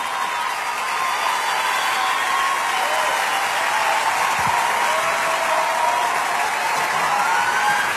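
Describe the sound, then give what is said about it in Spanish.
Audience applause at a Spanish-language event, loud continuous clapping mixed with crowd noise that stays at a steady level throughout. “Un aplauso para ese Venezuela maravilloso.”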